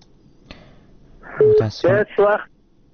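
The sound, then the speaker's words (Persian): A telephone busy signal sounds on a call-in line after the caller is cut off, with three short, buzzy, distorted tones separated by brief gaps over faint line noise. “تلفونشان قطع شد”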